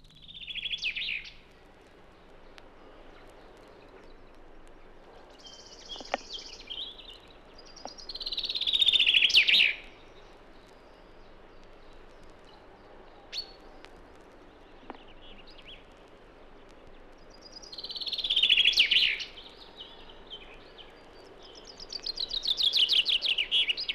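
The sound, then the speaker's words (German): Two neighbouring male forest birds counter-sing, one with flat, drawn-out strophes and the other with clipped, staccato, stepped phrases; a few loud, high song bursts alternate with quieter stretches. “In der folgenden Aufnahme singen sich zwei benachbarte Männchen mit recht unterschiedlichen Strophen an. Die eine verflacht und geleiert, die andere deutlich stackiert und abgestuft. Im Hintergrund singt ein Rotkehlchen.”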